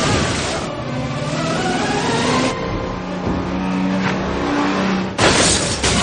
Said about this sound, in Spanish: El vehículo pierde el control y choca contra un taxi.